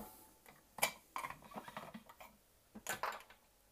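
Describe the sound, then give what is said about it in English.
A film developing tank's lid is snapped off with a few sharp plastic clicks and snaps, irregular and fairly faint, with no voices. “So I'm just snap the lid off.”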